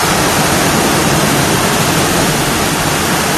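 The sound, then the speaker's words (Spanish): A heavy cloudburst downpour during flash flooding in Madrigueras, Albacete, Spain: a loud, dense, unbroken roar of pounding rain, steady throughout. “ese sonido que escuchaban era el sonido de la fuerte tromba de agua que ha caído”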